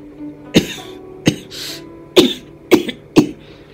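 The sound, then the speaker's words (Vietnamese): A man coughs several times in short, harsh bursts spaced unevenly, each cough sharp and loud against an otherwise quiet background. “Đột nhiên y lại ho lên.”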